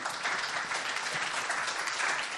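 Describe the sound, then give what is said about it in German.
A church audience claps along at a service, giving a steady wash of many hands clapping, moderately loud and even throughout, with no voices above it. “If you are happy, clap for that. Wenn ihr fröhlich seid, dann klatscht dafür.”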